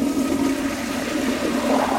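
A sensor-activated toilet in a public restroom flushes with a loud, steady rush of water that holds evenly throughout, with no talking.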